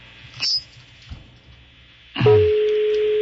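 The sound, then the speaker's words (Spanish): Telephone sounds as a number is redialed for a call that goes unanswered: a short high beep, a faint click, then a steady low tone that holds to the end. “A ver, vamos a marcarlo otra vez.”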